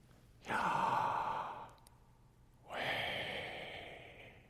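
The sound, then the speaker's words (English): A voice imitates breathing with two long, airy exhalations separated by a short pause, soft and unvoiced, the second breath slightly longer than the first. “Some scholars note that it would have sounded similar to breathing, something like”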